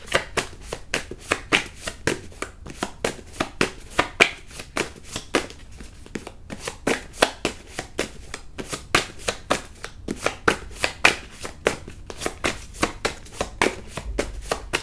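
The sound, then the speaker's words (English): A deck of cards that keeps sticking together being shuffled: many rapid riffling flicks and papery slaps in irregular bursts, fairly quiet and with no talking. “these cards are sticking together. Usually stuff jumps out, so I might have to, something told me to take this one.”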